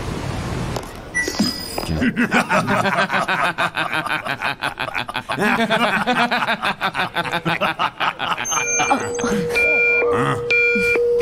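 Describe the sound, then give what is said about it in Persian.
A warning alarm during a combat scene: repeated high electronic beeping tones sound near the end, after a long stretch of dense, noisy sound with voices. “صدای چیه؟ میخوان فیلم نشون بدن؟ یکی اون آجیر لعنتی رو ساکت کنه”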